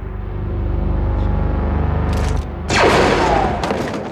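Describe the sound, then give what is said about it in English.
Gunfire erupts in a film shootout scene with stormtroopers. A low rumbling drone comes first, then loud, dense bursts of shots crackle in a rapid volley through the second half. “Boom, in the chest. Love it. Great stuff right there. And that begins the shootout, which triggers an escape.”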